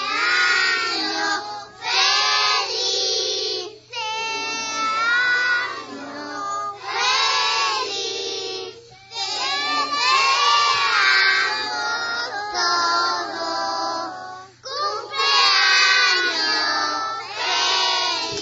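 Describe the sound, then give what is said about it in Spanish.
A group of young children at a library storytelling morning sings the Spanish birthday song together, loud and continuous across several phrases. “Así que, niños, niñas, cuando queráis, a la de una, a la de dos, que hay que cantar el cumpleaños feliz.”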